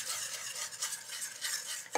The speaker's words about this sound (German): Das geben wir jetzt hier einfach dazu und rühren so lange, bis ein glatter Teig entsteht.